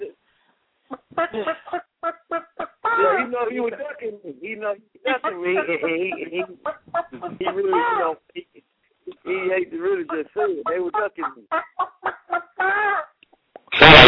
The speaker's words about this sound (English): Hey, we got a trigger on there somewhere. I don't know who that hen is. Kill that hen, somebody.